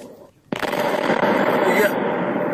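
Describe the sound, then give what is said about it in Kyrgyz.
Artillery shells and stored mines exploding at a military ammunition depot in Russia's Krasnoyarsk region after a fire. A sudden loud blast opens a dense, sustained roar of overlapping bursts and crackles that stays loud to the end. “Разрывы снарядов.”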